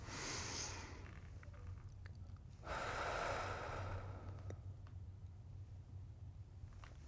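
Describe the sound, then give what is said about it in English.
A deep breath drawn in slowly and softly for about a second. It rises briefly out of a low, steady background hum. “Take a deep breath.”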